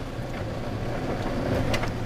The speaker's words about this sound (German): jetzt biegen wir ein in die alte Bahnhofstraße. Ja, fahren den Pyramidenstandort ab, weil das von Unimog zu eng ist fahre ich meinen Ring, streue den ab